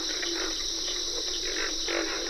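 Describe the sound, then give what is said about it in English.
Frog and insect chorus at a wet grassy prairie in Georgia's Okefenokee refuge, with pig frogs calling among crickets and carpenter frogs, forming a steady, fairly faint drone of high shrill trilling over lower croaking. “Pig frogs are the featured crooners at a wet grassy prairie in the Okefenokee National Wildlife Refuge in Georgia. Backup singers include cricket and carpenter frogs.”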